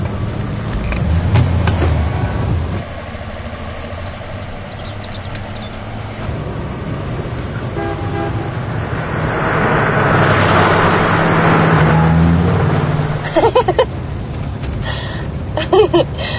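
A Bristol car's engine runs and swells into a rougher, louder roar as the car pulls away, steady and broad with a few brief tonal notes on top.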